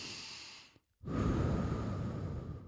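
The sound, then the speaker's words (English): Breathing in and out: a soft, airy inhale, a short silent pause, then a longer, fuller exhale, quiet and heard on its own. “Let's breathe.”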